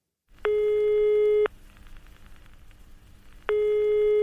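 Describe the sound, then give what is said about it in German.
Telephone ringback tone on a call to the Berlin police emergency line. One steady beep about a second long is followed by a long pause filled with faint line hiss, then a second beep begins. “Anruf bei der Polizei.”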